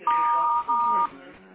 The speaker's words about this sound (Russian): Если хотите оставить ему голосовое сообщение, пожалуйста, говорите после звукового сигнала.